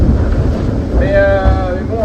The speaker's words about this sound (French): là on avance vers le fond et avec cette mer, ça rend le truc un peu sauvage.